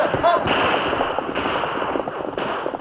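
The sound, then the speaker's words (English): Gunfire rings out in a western radio drama shootout between a sheriff's posse and holed-up men, a few sharp cracks standing out over a constant noisy background. “They're firing at us. Give them some lead, man.”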